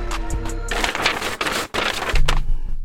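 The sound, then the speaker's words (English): A paper envelope is torn open at an awards podium, giving bursts of crinkly tearing and rustling noise over a few seconds, with short breaks between them. “let me open this envelope”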